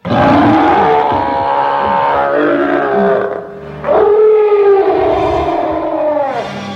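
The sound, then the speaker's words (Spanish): A furious gorilla roars behind a closed door in two long, loud, harmonic howls. The first holds steady before fading, and the second swells sharply, then slowly drops in pitch. “Además, detrás de la puerta cerrada había un gorila furioso.”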